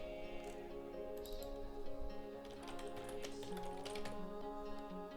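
Typing on a computer keyboard while entering a password for an admin account: many quick, light keystroke clicks in irregular bursts over a steady background of sustained tones.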